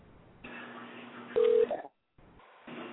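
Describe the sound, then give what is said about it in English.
Telephone number being dialled on a phone line: a steady line tone, then a louder, higher keypad beep, a brief silence, and the tone returning. “Let's try to get Janice on the phone again, honey.”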